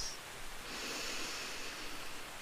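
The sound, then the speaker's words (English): A deep breath drawn in through the nose during a guided sleep meditation: a soft, airy hiss that swells and holds steady for about two seconds, faint and alone with no talk. “taking a deep breath in through the nose”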